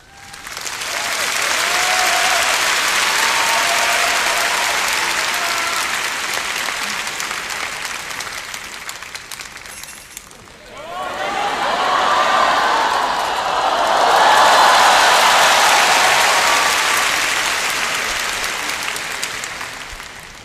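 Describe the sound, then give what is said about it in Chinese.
Loud audience applause after a final song at a Cantonese storytelling show, many hands clapping in a long sustained wave that dips briefly partway through and then swells again before tapering off. “要掌声鼓励下咧，”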